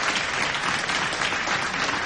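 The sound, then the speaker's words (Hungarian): A cabaret audience applauds with dense, continuous clapping from many hands, holding a steady, even level throughout. “A közönség tapsolt.”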